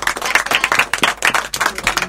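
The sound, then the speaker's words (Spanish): Applause at the close of a school radio program, a short burst of dense, fairly loud clapping from a group, with sharp overlapping hand claps and no talk. “si nos despedimos con un fuerte aplauso para ustedes y para todos los que nos trabajan.”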